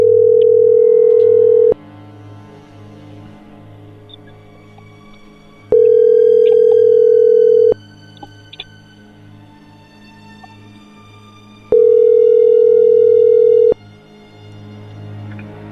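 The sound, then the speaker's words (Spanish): Ringback tone of an outgoing telephone call: three steady, mid-pitched tones of about two seconds each, separated by gaps of about four seconds, over a low background hum. “vamos a marcarle otra vez a ver si contesta”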